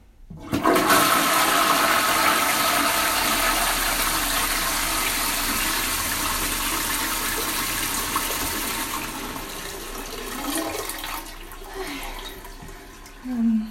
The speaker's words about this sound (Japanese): 流します。